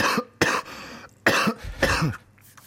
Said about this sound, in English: Try not to cough.